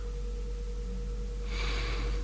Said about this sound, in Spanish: esa campana tubular está afinada en una frecuencia de 528 Hz.